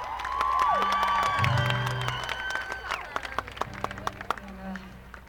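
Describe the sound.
Audience applause welcoming a performer on stage: a dense wash of clapping and cheering with a held tone early on, thinning into scattered individual claps toward the end.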